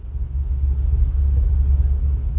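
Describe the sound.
Low, steady engine rumble inside a microbus crammed with twice its twenty-passenger capacity of pilgrims on an overnight ride out of Cusco, a continuous droning hum with no breaks.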